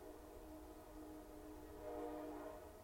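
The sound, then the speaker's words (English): A long, unbroken train horn blast: a steady, chord-like tone held for the whole stretch without stopping. It is faint and swells slightly louder near the end. “That was like 6 seconds of fucking horn without stopping. That was crazy. I hope you guys hear that.”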